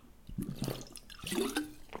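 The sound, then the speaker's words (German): A sip of water being drunk: soft liquid slurps and gulping swallows, a few faint wet clicks in an uneven run, quiet and without talk. “Und darauf trinke ich einen Schluck Wasser.”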